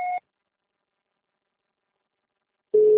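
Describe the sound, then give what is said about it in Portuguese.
Electronic beeps from a Portuguese-language voicemail system: a brief two-tone beep, then a long silence, then a steady lower-pitched tone that marks the start of recording. “Sua chamada está sendo encaminhada para a caixa de mensagens para fugir da cobrança após o sinal.”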